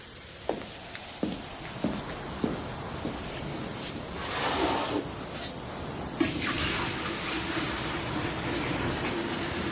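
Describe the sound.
Icy seawater is poured for a cold footbath. A few sharp knocks are followed by a broad rushing pour that settles into a steady, hissing flow, with no voices.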